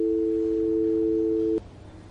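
A telephone tone sounds after the call is hung up: a steady, low, continuous hum that holds for about a second and a half, then cuts off abruptly.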